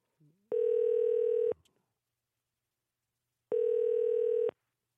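Ringing tone of an outgoing telephone call: two steady, buzzy one-second tones separated by about two seconds of silence, with no voices.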